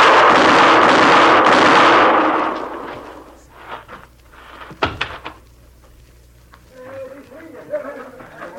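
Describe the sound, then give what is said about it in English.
Gunshots in a radio drama shootout: after a loud, sustained noisy stretch, a few sharp cracks ring out amid quieter sounds, with voices present. “You got him, Mr. Dillon. You got him. Yeah. You hit him all three shots. I could see every one of them.”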